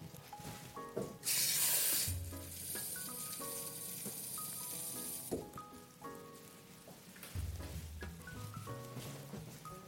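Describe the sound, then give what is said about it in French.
Hot water is poured onto 30 g of dried seaweed to rehydrate it. A quiet hissing splash starts abruptly, is strongest for the first moment, then continues softer for a few seconds before stopping. “J'ai mes 30 g d'algues et maintenant je vais ajouter de l'eau chaude dedans pour les réhydrater très rapidement.”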